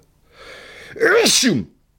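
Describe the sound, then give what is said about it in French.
A single human sneeze: a softer breathy intake builds up, then a sharp, loud burst follows and fades quickly. “ça me donne envie d'éternuer d'ailleurs”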